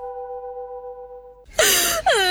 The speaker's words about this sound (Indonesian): jangan nangis lagi. Malu tuh dilihat orang.